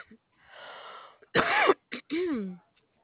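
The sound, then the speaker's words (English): A harsh, throat-clearing cough: a softer breathy hiss, then a loud rough burst, a brief second hit, and a voiced tail sliding down in pitch. “Was that a sneeze or a cough? That was a cough.”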